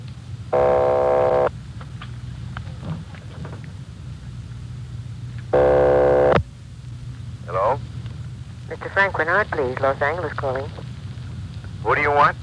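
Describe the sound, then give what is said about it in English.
A telephone rings on a long-distance call, heard as two long buzzing tones about a second each with a pause between them. Voices follow and talk over a low hum. “Keep ringing, 761. They're ringing the number, Sergeant.”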